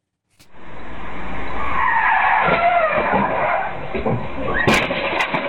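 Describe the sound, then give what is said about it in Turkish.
Tires skid and squeal as a car slides out of control on a street in Palandöken, Erzurum, before hitting an electric pole; a loud, sustained hiss of rubber scraping the road runs almost the whole clip after a sudden onset. “Erzurum'da kontrolden çıkan bir otomobil kaldırımda yürüyen iki genç kızın üzerine doğru ilerledi. Gençlerin kıl payı kurtulduğu, aracınsa elektrik direğine çarparak durabildiği kaza anına bakalım şimdi.”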